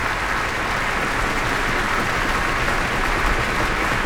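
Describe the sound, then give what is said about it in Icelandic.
A concert audience applauds an orchestra as the conductor and a trumpet soloist return to the stage and the players rise to their feet. The ovation is a loud, even, continuous roar of many hands that never lets up. “Og hljómsveitin stendur öll á fætur og tekur á móti fagnaðarlátum tónleikagesta.”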